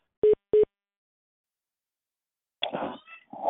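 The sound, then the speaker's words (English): Two short electronic beeps from a mobile phone come in quick succession. After a pause, a louder, rougher burst of sound follows. “That's my phone.”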